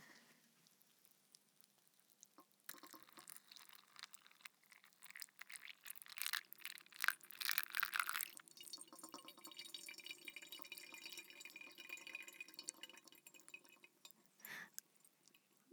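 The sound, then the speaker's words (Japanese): Hot water is poured over ground deep-roast Mandheling coffee in a drip coffee maker, giving a quiet, steady trickle and soft hiss with scattered drips that swell in the middle and continue throughout. “はい、じゃあお湯を入れます。”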